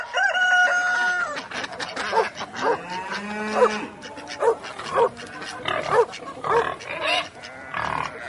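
A rooster crows among a mix of farm animal calls, including deep moo-like lowing. Loud harmonic cries rise and fall in a busy run of several calls over about eight seconds.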